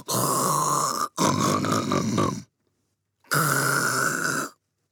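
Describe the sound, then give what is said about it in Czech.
Loud, raspy snoring from a sleeping witch: three long, harsh snores, the first two back to back, then a pause before the third, with no talk. “V tom se čarodějnice Krákoranda pohnula a zachrápala nahlas.”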